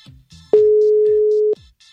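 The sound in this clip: Outgoing voice call ringing tone in a messaging app: a single loud, steady mid-pitched tone lasting about one second, with faint low sounds before and after it.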